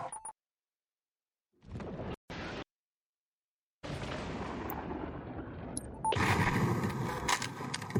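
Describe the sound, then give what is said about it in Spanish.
Anti-aircraft guns fire in the Halo Infinite video game: a brief blast, a pause, two short heavy bursts, then a sustained, rumbling barrage of booming gunfire that grows louder near the end. “Esas armas antiaéreas están destrozando nuestras naves.”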